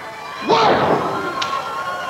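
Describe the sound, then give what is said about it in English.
A single heavy thud as a wrestler is slammed onto the ring mat by a power bomb at a 1991 pro wrestling match, the loud impact blending with a brief shouted voice and fading noise. “Tremendous force to the power bomb from Big Sid Vicious”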